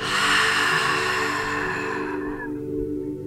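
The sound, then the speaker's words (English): A long breath is let out through widened lips as a soft, airy rush for about two seconds, then trails off over a faint, steady sustained tone. “and then on your exhale, just widening your lips and allowing it to fall out.”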